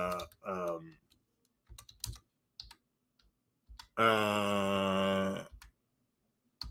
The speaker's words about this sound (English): Let me put that in the comments. I very rarely type